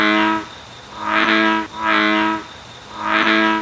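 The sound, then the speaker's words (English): A bullfrog gives deep, resonant droning calls with a rich, buzzy tone, repeated in a steady rhythm of swelling bursts and separated by short dips. “This was the sound of a bullfrog. Let's listen one more time.”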